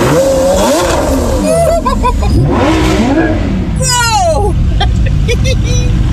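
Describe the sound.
A car engine revs and accelerates loudly on a joy ride for an elderly great-grandmother. The powerful roar surges continuously while people talk over it.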